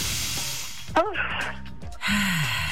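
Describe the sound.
Deep breathing during a guided breathing exercise: airy, hissing inhales and exhales at moderate loudness, with a brief voiced sound in the middle.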